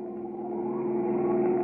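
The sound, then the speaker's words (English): A car engine drones steadily as the car drives over a muddy road up to a house, a low even hum with a constant tone that swells slightly louder over its length, with no voices. “Even now, he and his wife are driving over the muddy road up to the house.”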